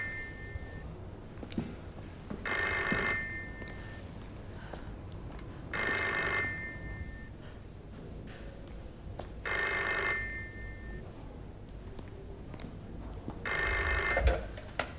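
A telephone rings in four evenly spaced bursts of bright, bell-like trilling, each under a second long, with quiet low background noise between them.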